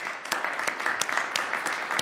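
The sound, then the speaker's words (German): Applause from FIFA Congress delegates voting by acclamation: moderate, even clapping with scattered sharper claps punctuating a steady wash of hand noise. “Und dann wird so abgestimmt, wie Gianni Infantino es am liebsten hat. Mit Applaus. If you agree, please Acclamation.”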